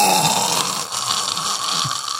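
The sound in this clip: A voice imitates the loud, continuous snoring of a man thought to have sleep apnea: a harsh, rasping drone held steadily through the whole clip.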